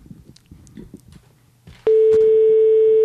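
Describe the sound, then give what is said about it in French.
A telephone line tone sounds while a call is being placed: a loud, steady, unbroken tone that starts suddenly partway through and holds to the end, after a stretch of faint low murmur. “Alors nous allons appeler Cléroune.”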